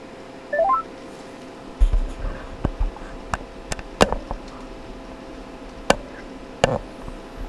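Touch-tone telephone dialing opens with a quick run of stepped beeps, followed by a few scattered faint clicks and short tones over a low hum.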